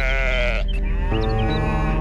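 Sheep bleat in a long, wavering, nasal cry. After a brief dip, a second sustained bleat follows, steady and moderately loud over a low, constant background.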